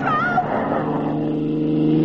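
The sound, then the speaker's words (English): A runaway truck loaded with nitro roars along in a continuous, loud engine drone that holds a steady pitch. “Runaway truck behind me loaded with nitro.”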